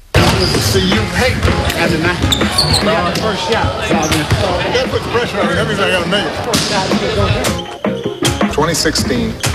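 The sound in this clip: A basketball game with players in a presidential sports hall: many sharp ball bounces and slaps among shoe squeaks and hubbub, with players talking throughout, the whole scene loud and busy.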